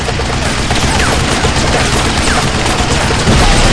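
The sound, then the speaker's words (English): A burst of gunfire rakes across dried mud and strikes parked Hummers, one armored and one without a cover. The roar is loud, dense and continuous, with no separate shots standing out, and it grows slightly louder near the end. “The companions frantically scattered as the twin row of bullet holes stitched across the dried mud to hit the vehicles.”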